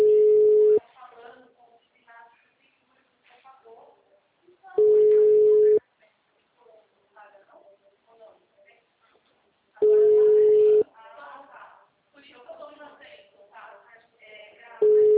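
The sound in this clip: Steady telephone tones sound while a client is being called: four one-second beeps at an even pitch, about five seconds apart. A person talks in the gaps between them.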